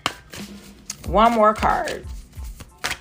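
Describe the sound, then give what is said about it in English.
A card is drawn from a deck during a card reading. A few brief, sharp snaps and slides come around a voice that talks through the middle. “One more card.”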